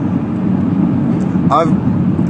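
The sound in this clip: Road noise inside a car driving on the road makes a steady, continuous low rumble with a broad hiss, even in level throughout.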